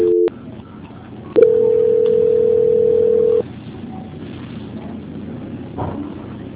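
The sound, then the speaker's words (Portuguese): A telephone line tone plays while a call is being transferred: a brief tone, a pause, then a steady unwavering tone of about two seconds over faint background hiss, after which the line goes quiet. “Só um minutinho na linha que eu vou estar transferindo a ligação para a auditoria.”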